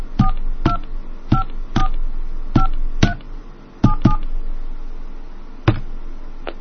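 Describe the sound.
Telephone keypad touch tones dial a toll-free 888 number: nine sharp two-note beeps, loud and irregularly spaced, with longer gaps between some presses and a final tone after a pause.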